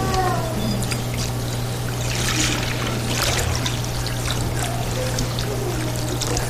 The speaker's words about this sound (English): Well, and here we have regular old water.